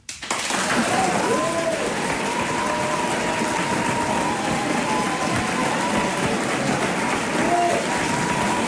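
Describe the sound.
Audience applause in a theatre hall, used to gauge support in a mock vote. The clapping bursts in after a brief quiet moment, then stays dense and steady to the end, with a few voices rising above it.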